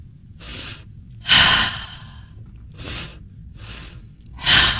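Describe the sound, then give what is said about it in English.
Deliberate deep breathing in a conscious breath demonstration: several airy breaths separated by short pauses, two of them louder and longer, with no talking over them. “So this is a conscious breath. So what it looks like and sounds like for people that are just listening, it's just...”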